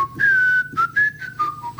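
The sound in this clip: The Internationale melody is whistled as a short, clear run of several sustained notes stepping up and down. The whistle is loud and alone, with no talk.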